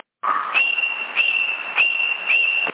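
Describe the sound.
Whistling carried over a CB radio link: a high, steady whistled tone after a brief lower start, broken by a few short dips, with radio hiss underneath.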